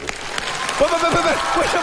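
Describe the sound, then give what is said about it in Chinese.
Audience applause during a stage comedy performance: a burst of clapping at the start, then a voice talking over it through the second half. “你表演一个铁头撞火车，鼓掌。”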